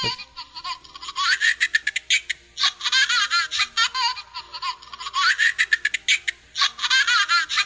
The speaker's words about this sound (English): I isolated the scary baby sound that she sent in, and I think it's the same one.